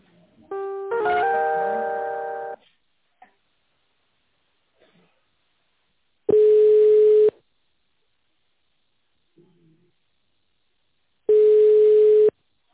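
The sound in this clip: Telephone ringback tone during a call transfer: a short multi-note electronic chime opens, followed by two long, steady single-pitch beeps separated by several seconds of silence.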